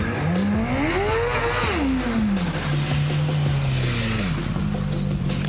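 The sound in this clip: Motorcycle engine revving as the throttle is opened on a hot engine: a loud drone climbs in pitch, falls back, holds a lower steady note, dips briefly, then rises again.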